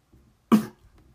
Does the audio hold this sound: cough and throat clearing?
yes

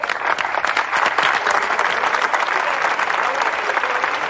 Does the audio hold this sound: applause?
yes

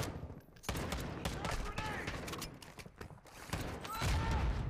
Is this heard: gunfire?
yes

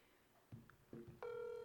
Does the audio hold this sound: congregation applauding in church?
no

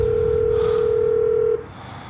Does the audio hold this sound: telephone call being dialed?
yes

